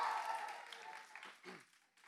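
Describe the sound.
An audience cheers and applauds for a newly introduced student ministry intern, a faint wash of clapping and shouting that tapers off over about two seconds.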